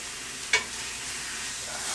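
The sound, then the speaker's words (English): Pork medallions sear in a hot pan with a bright, steady sizzling hiss that runs throughout, broken by one short sharp clack near the start. “So we are just going to let that do a quick sear for just a moment.”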